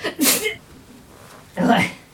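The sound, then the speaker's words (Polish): A woman sneezes twice, each a sharp, breathy burst of hissing noise, with a quiet stretch of about a second between them. “Nie zauważyłem, w którą stronę teraz kichnęłaś.”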